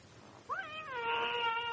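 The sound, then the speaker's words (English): A stray cat gives one drawn-out meow indoors, in a house holding dozens of dirty, mangy strays. The meow rises at its start and then holds steady over a low, constant background hiss. “How many cats have you got in here? There were dozens of them. Dirty, mangy, sore-ridden, incontinent strays.”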